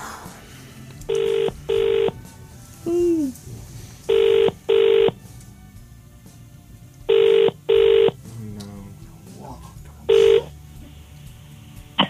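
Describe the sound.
Telephone keypad dialing: seven clean, steady beeps, mostly in quick pairs with a single tone at the end, separated by short gaps of faint background noise.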